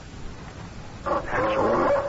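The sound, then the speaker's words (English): A young puppy gives a short whimpering yelp, a high, wavering whine that starts after a second of near-silence and lasts about a second. “That's old Patchy there. It ain't nothing but a pup.”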